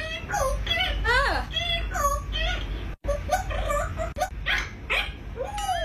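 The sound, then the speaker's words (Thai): A playful African grey parrot sings in a string of squeaky, whistled chirps that swoop up and down in pitch. The notes run almost without pause for several seconds, with one brief gap midway. “ที่มีเจ้า Justin ค่ะนกแอฟริกันเกรย์สุดขี้เล่นแสนรู้สามารถสื่อสารโต้ตอบแบบกวนๆแถมยังร้องเพลงได้ด้วย”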